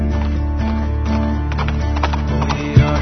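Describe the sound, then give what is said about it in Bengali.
Horse hooves clip-clop in a steady series of hollow knocks over a sustained tonal background. “অশ্বারোহীর মুখটা দেখা যায় না, শুধু ঘোড়ার পায়ের শব্দ শুনে যায়,”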